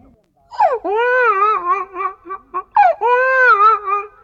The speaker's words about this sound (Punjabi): ਵੀਰ ਨੂੰ ਖਿਡਾ, ਵੀਰ ਬਹੁਤ ਰੋ ਰਿਹਾ।